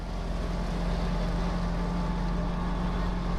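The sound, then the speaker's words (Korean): A snowplow engine drones steadily through a ride in snowy country, a loud, even low rumble with a constant hum and no breaks. “이거 제설차 아니야?”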